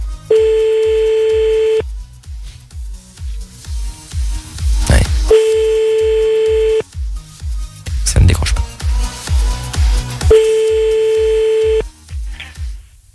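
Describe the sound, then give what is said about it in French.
A telephone ringing tone on a call to a chosen number repeats three times, each a steady buzzing tone about a second and a half long with pauses between, over a pulsing music beat and some talk. “on appelle maintenant le premier numéro de ce soir envoyé sur le mail de Tof grâce à tous vos messages.”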